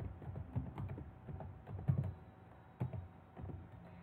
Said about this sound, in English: Type in the text followed by enter.